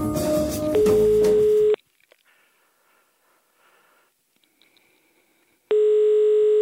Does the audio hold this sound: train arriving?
no